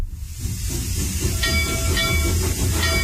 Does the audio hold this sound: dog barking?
no